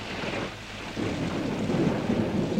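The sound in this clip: Steady rain hisses under low rumbling thunder in a continuous broad wash of noise that dips briefly, then swells back louder. No voices.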